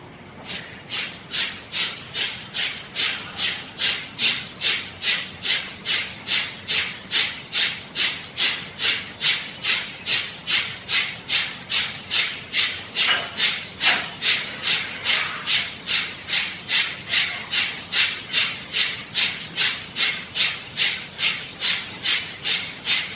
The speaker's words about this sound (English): We'll do the breathing, strong and vigorous to lighten up. The stronger and the more vigorous it is, the quicker you'll arrive at a lightness.